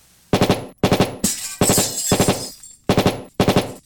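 Beam laser opening fire: loud, short bursts of rapid pulsed shots, several in a row, with a longer hissing, noisy blast in the middle and no talk.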